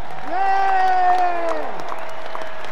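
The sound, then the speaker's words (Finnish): Applause and cheering from a concert audience for the tour staff, with a loud sustained vocal tone riding over the clapping for about a second and a half before easing off. “Ja erityisesti haluan kiittää myös meidän henkilökuntaa. Ja annetaan meidän henkilökunnalle aplodit.”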